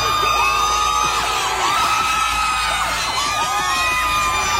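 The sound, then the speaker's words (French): Oklahoma City Thunder fans cheer at night as their players return from San Antonio after game 6. The crowd makes a dense, continuous roar of shouts, whoops and yells that stays loud the whole time. “Il suffit d'écouter comment les joueurs du Thunder ont été accueillis en pleine nuit à leur retour de San Antonio après le match 6.”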